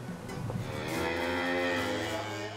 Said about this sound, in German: Heute kommen die Rinder auf die Sommerweiden.